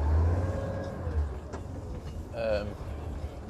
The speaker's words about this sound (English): I'm just trying to turn this corner, quite a few cars here, just that work, you see.